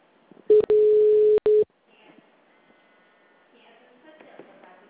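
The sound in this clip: Electronic phone ring for an incoming call: a short burst, then a steady mid-pitched tone of under a second, another brief burst, followed by faint low noise.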